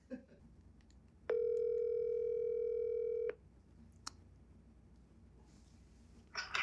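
Telephone dial tone as a call is placed, a steady, loud buzzing tone held for about two seconds before cutting off into near quiet, followed by a faint click and a soft burst of noise at the end.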